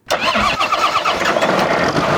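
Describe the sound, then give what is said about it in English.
A farm tractor engine starts up on a spinach field in eastern Oklahoma, catching abruptly after a split second of quiet and settling at once into a loud, rough, steady rumble that keeps running to the end. “A farmhand fires up a tractor to begin planting spinach at Conrad Farms just outside of Gore in eastern Oklahoma.”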